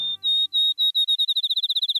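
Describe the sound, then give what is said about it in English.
Field sparrow singing in the dark before dawn on a July morning in Wisconsin countryside: a few long, clear, high whistled notes that quicken into a rapid, sweet trill of many short notes, heard alone. “A sweetly whistled song speeds toward a melodious trill. It's still dark, an hour before dawn on this July morning in the Wisconsin countryside. A field sparrow announces the new day.”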